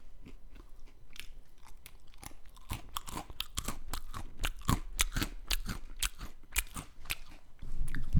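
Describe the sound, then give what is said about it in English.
Crunchy chewing of fried cheese curds: many crisp, irregular bites and crackles heard on their own with no voices, getting a little louder near the end. “We got the fried cheese curds. They're delicious.”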